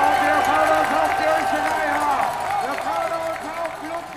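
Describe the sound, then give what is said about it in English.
A crowd cheers and shouts for a passing cycling peloton at a race, a dense, loud roar of many voices that carries on steadily throughout. “make some noise for the peloton here at the peloton. Cheer ahead. Cheer them on. We want to hear you. Make some noise.”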